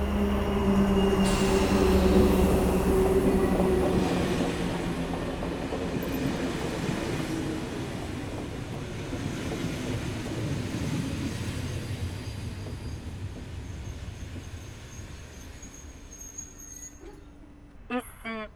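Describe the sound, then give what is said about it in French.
A regional TER train from Paris-Nord to Boulogne-Ville pulls into Étaples-Le Touquet station with a loud, heavy rolling rumble and sustained squealing tones early on. The noise eases gradually, and a few sharp clicks come near the end. “Le TER Hauts-de-France, en provenance de Paris-Nord et à destination de Boulogne-Ville, départ 13h10, entre en gare.”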